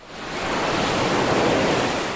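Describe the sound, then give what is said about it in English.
Ocean waves crashing at a beach give a broad, steady roar of surf. It swells over the first quarter second, then holds loud and even throughout, with no voices. “ocean waves crashing at the beach”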